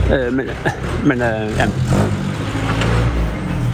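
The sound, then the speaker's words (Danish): A vintage car drives past, its engine a low, mid-pitched rumble that runs beneath a person talking the whole time. “Jamen, det er lige en veteranbil, der kører forbi her nu.”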